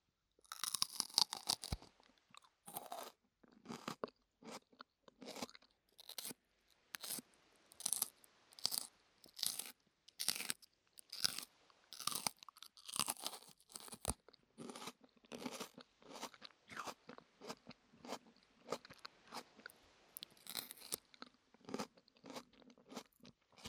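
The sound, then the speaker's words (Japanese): Loud crunching and chewing of raw cabbage, many crisp, irregular bites and chews in quick succession with brief pauses between them, no talking over them. “では開けて早速食べていきたいと思います。このお野菜はなんだ。”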